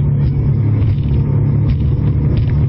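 A vehicle's engine runs at full throttle as a loud, steady, low rumble that holds without a clear rise in pitch, with no talk.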